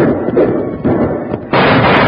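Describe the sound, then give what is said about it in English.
Six-gun gunshots ring out from a cabin during a Western showdown. A few heavy, booming reports each trail off into a long, rumbling tail. “When shots rang out from the Benton brothers' cabin ahead of them, Jingles cut loose with his six-gun, ready for a showdown fight.”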